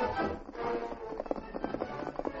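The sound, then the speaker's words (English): Horse hooves clip-clop as a rider travels along a north trail under bright moonlight. The hoofbeats are steady, rhythmic and moderately loud. “the Lone Ranger rode along the north trail toward the Danvers place”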